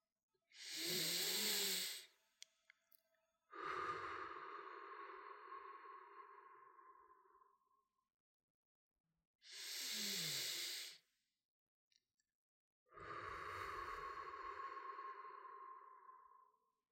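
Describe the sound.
Two slow, deep breaths, each a short hissing inhale followed by a long, loud exhale that trails away. Quiet pauses separate the breaths, and no one speaks.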